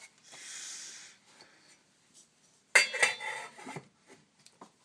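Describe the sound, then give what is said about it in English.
A pot lid is picked up with gloved hands while cooking couscous. A soft hiss comes first, then a clattering metallic rattle and scrape of the lid, with no voices. “I'm trying to pick up the lid with gloved hands.”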